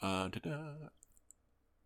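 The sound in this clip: A computer mouse gives a few quick, faint clicks just after a short burst of speech.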